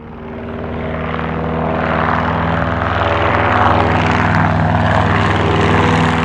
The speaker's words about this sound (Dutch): op 20 april 1940, vliegt een Duitse Henkel 111 ter verkenning boven Frankrijk en België.